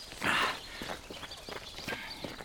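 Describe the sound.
Footsteps walk through a gate and up toward a castle ruin, a steady series of hard, fairly quiet steps with a brief brighter noise near the start.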